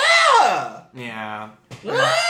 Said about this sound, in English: we heard an eastern screech owl that did just straight up sound like a woman screeching